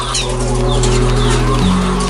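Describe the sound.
Laying hens at an egg farm, with loud clucking and chatter over a constant low mechanical hum that shifts pitch slightly partway through, with no voices.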